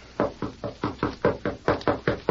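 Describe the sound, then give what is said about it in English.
Knocking on a door with knuckles: a brisk, even series of many firm raps in a steady rhythm, fairly loud and alone. “That is Miss Abby's door, sir. I'll knock.”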